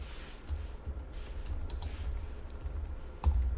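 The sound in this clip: Typing on a computer keyboard while writing code: many quick, faint key clicks in an uneven rhythm, with one slightly heavier keystroke near the end.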